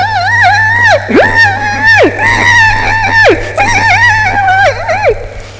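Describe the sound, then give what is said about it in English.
A man imitates a high squeal with his voice, copying how a mute man sounded: a run of shrill, wavering vocal squeals, loud and strained, with short breaks between them and no other talk. “He had no voice, absolutely no voice, except he had this squeal. So when he spoke, he went, if I see if I can do it, he went,”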